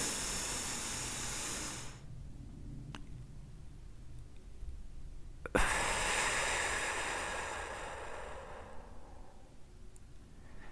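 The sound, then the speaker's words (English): Slow, deep meditative breathing: two long, airy, hissing breaths separated by several seconds of near quiet. The second breath begins abruptly and fades gradually. No talking. “So let's do a couple of deep breaths. You ready?”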